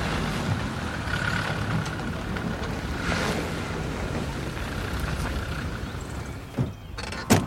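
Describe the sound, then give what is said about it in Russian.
Engine rumble of approaching cars, a steady broad noise blended with rushing water from a stream crossed on stones, with a couple of brief bumps near the end. “идут навстречу подъезжающим машинам.”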